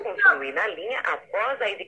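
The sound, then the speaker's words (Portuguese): Telephone collect-call signal: a narrow, phone-line-sounding recorded announcement that sounds like a voice, coming in a few short bursts with brief gaps, fairly loud and steady throughout. “Peraí! Ligação a cobrar!”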